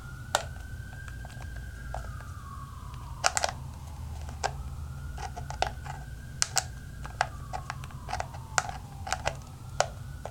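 Screw being turned out: irregular small clicks and ticks, some in quick clusters, over a steady low hum.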